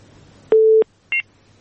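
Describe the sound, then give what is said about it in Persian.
Telephone tones from a dropped call: one low, steady beep lasting about a third of a second, then after a short pause a briefer, higher dual-pitched beep. Near silence surrounds them. “مشکل تکنیکی است تماس میگیرن ولی تماسایشان پی هم قطع میشه”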